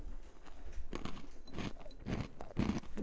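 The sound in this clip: Crunching bites into a coarse, crumbly, brittle shortbread-like biscuit eaten over a bowl, a rapid series of dry cracks and chewing crunches of varying loudness, with no talk.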